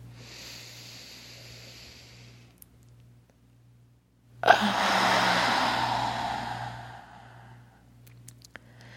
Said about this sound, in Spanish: Así que respira profundo, llena tus pulmones, estíralos en este momento en el que eres.